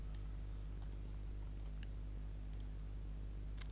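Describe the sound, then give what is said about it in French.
Computer mouse clicking on a Mac while opening a downloads folder in a file browser: a few faint, sharp clicks scattered over a loud, steady low hum. “Je clique ici sur l'icône représentant le dossier téléchargement.”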